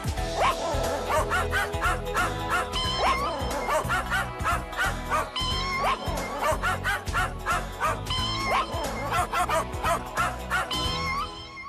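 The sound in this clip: Dog barks, yips and whimpers are arranged rhythmically into a song, a loud, continuous string of repeating yelping notes carrying a melody.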